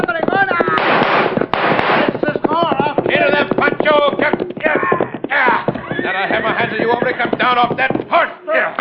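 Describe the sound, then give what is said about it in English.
Gunfire rings out in a horseback shootout, many sharp shots cracking over galloping hooves and a neighing horse. Men shout and talk throughout the loud, busy exchange. “Watch out for bullets. See? We'll start shooting. Yeah, we were just shooting ourselves just to spoil their aim.”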